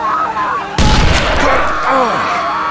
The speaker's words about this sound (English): Another shot tore into his shoulder, exiting through his right arm.